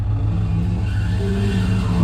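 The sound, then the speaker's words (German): A car drives on, its engine giving a steady, low, continuous drone that holds an even loudness throughout with no clear revving. “Ohne weitere Aufenthalte fahre ich nach Chrysopolis.”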